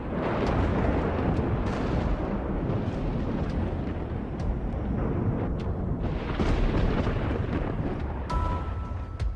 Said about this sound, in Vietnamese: đúng lúc có một tia sét rạch ngang trời, vang lên tiếng nổ đinh tai nhức óc